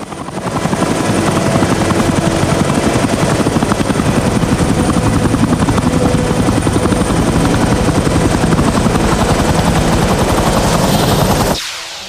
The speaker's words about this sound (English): A helicopter arrives. The crew hold on to their hats as it lands.